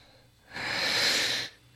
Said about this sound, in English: He took a deep breath.